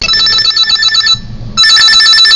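A telephone rings as a listener's call comes in: two loud, bright electronic trilling bursts, the first cut off by a short pause before the second begins and runs to the end.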